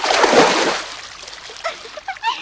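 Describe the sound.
A loud splash as someone jumps into a swimming pool, then a trailing slosh of water settling, followed by brief vocal sounds.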